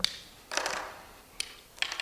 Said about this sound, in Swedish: Men vi ska rita in några andra saker på den här linjen. Se så vi får pennor som funkar här. Nej, den var dålig. Vi tar en grön, det verkar bra.